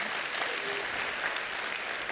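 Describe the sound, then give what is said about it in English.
Audience clapping for donations to a junior high summer camp, a dense continuous patter of many hands at steady moderate volume for two seconds with no voices over it. “And yeah, you can clap for that.”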